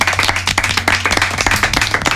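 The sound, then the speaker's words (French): A team applauding themselves, many loud, sharp hand claps in a fast, fairly regular stream that runs without a break from beginning to end. “En fait, applaudissez-vous, merde, franchement, voilà.”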